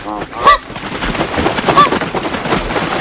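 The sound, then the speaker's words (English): Migratory birds calling in a nature documentary, loud goose-like honks repeated over a dense rushing, rumbling noise. “That's the sound of the film Winged Migration, a documentary that followed migratory birds.”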